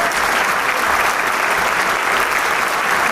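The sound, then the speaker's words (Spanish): Concert audience applauding the Camerata de Coahuila, a steady, dense and fairly loud wash of clapping that continues evenly throughout without voices standing out. “quien recibe el aplauso del público, al igual que todos los miembros de Camerata en este excelso concierto.”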